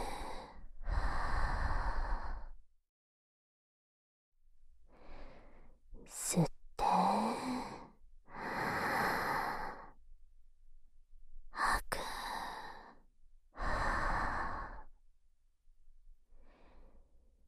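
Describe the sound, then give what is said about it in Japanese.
Deep breathing in and out during a guided breathing exercise: a series of slow, airy inhalations and exhalations with short pauses between them, fairly quiet and with no voice over them. “息を大きく吸って、吐いて、”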